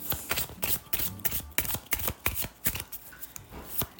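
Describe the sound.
Deck of numerology cards being shuffled before one is drawn: many quick, crisp papery riffles and slaps in an uneven rhythm, fairly loud with no voices.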